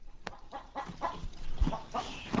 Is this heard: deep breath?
no

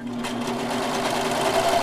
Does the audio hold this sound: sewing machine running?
yes

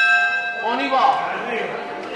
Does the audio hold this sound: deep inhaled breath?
no

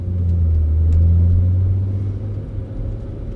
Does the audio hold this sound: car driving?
yes

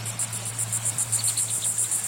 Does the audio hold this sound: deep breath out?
no

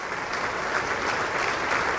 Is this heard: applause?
yes

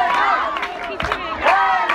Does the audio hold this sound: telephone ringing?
no

